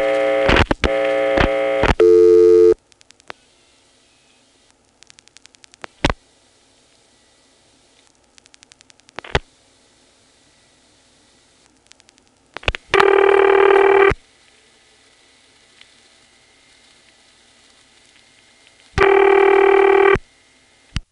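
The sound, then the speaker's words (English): A 1977 telephone call dialed directly to a test board: a quick run of dialing tones, scattered clicks on the line, then two long ringback tones separated by quiet gaps, with no answer. “The only recording I have of calling that is from 1977, and I'm dialing it directly, so here's 49 to drop plus 97.”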